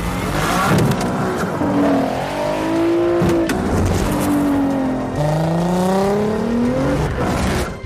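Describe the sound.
Race car drifting sideways at very high speed, its engine loud and continuous, with harmonic notes that climb repeatedly as it revs and a rough, noisy edge throughout.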